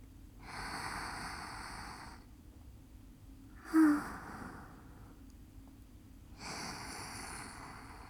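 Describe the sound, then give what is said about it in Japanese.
Slow deep breathing: two long, airy breaths, each a couple of seconds of steady soft hiss, with a brief snort-like puff between them. No talk. “ほーら、深呼吸して。”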